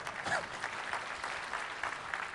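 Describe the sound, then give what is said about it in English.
Audience applause at a technical talk on Windows Runtime: a moderate, fairly soft wash of many hands clapping, steady and even with small pulses of louder claps scattered through it. “Applause, yes, applause is always good.”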